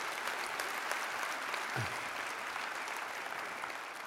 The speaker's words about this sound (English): Can I ask you just appreciate our teams that work so hard to do this? Just give them a round of applause.